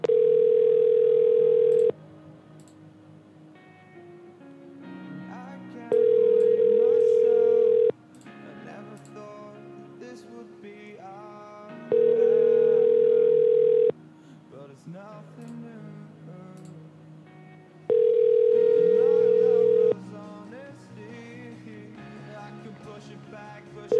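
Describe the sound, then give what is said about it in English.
A phone line rings while calling a cell phone: four long, steady ringback tones of about two seconds each, separated by roughly four-second gaps, with a fifth just beginning and other sound continuing underneath. “He won't appreciate a call on his cell phone. I'll call his cell phone, but he won't like that at all.”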